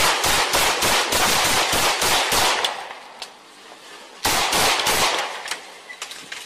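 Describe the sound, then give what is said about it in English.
Gunfire erupts during a police confrontation near a parking lot: many rapid, sharp shots in a dense volley, a short lull with a few isolated cracks, then a second loud burst of shots. “Shots fired!”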